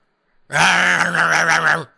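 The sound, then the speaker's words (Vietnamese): A towering giant ape-like beast lets out a deep, guttural roar, one sustained growling cry lasting over a second with a slight wavering throb, loud and alone before it cuts off. “Con quái thú gầm lên”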